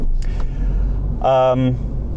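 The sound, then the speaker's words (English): Steady low car rumble while driving to work through a traffic jam and turning around in the road, a continuous engine and road drone with a short burst of speech over it. “Sorry, there's a bit of a traffic jam where I am, and so I'm just trying to turn the car around. It's the danger of doing this podcast on my drive to work.”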